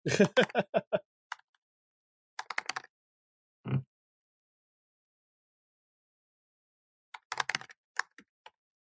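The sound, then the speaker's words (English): Typing on a computer keyboard in short bursts of quick clicks, with silent pauses between the flurries. “wait, I can type it in.”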